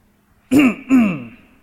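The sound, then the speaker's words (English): A man clears his throat before a sermon in church: two short, rough bursts in quick succession, the second trailing off slightly longer, with no talking. “He cleared his throat.”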